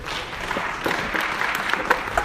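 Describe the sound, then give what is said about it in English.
Audience applause after a Christian talk, a dense, even patter of clapping that runs through the whole moment at moderate loudness, with no voices over it. “A round of applause.”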